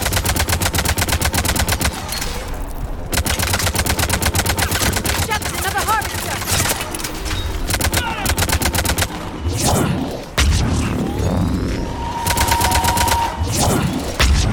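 Rapid automatic gunfire in a video game battle against a harvester: loud, dense bursts of shots run almost continuously, broken by a few short pauses.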